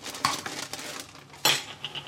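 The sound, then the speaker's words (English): Knife chopping pickles for a sambal, lime and pickle mayo: a few sharp clicking strikes with faint kitchen clatter between them, the loudest hits near the start and in the middle. “Let's chop some pickles.”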